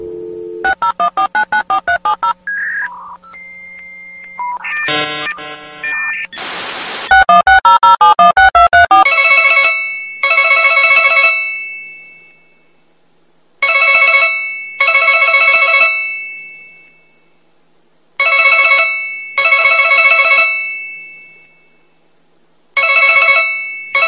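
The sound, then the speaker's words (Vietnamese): A telephone number is dialed as a rapid series of keypad beeps, followed by a jumble of electronic tones. The phone then rings loudly in a few repeated double bursts separated by short silences. “Rồi cô bấm số gọi vào máy của Dục Chu.”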